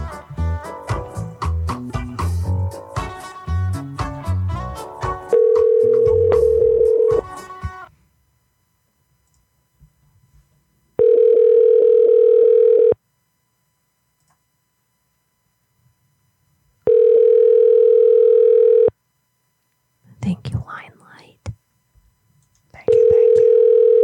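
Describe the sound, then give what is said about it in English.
A telephone ring-back tone plays while a call is being placed. Four steady, mid-pitched tones of about two seconds each are separated by long silences, with other mixed sounds in the opening seconds. “We are calling Ty.”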